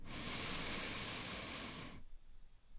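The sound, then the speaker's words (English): A huge, deep inhale during a guided relaxation exercise, a steady, airy hiss that holds at even strength for about two seconds and then stops abruptly, leaving faint quiet. “Once more. Huge inhale.”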